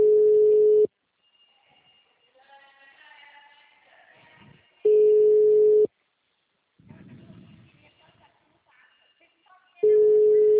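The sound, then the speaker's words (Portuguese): A telephone ringback tone sounds while a call is placed to a client. Three steady, mid-pitched one-second tones are spaced by long gaps, with faint muffled voices and line noise between them. “Eu tô ligando pro cliente.”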